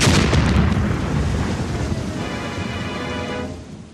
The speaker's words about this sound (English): When I say boom, I mean boom! Oh, that's what I thought you said. Here's a boom, Doc.